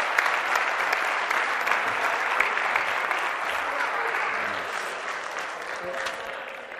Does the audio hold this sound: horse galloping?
no